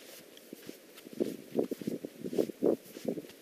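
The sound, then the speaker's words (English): Footsteps walking in soft, powdery desert sand make faint, muffled thuds and scuffs. The irregular series of quiet steps has no other clear sound. “Well, we got into really soft sand. You can't actually hear us walk here. I can hear you walk.”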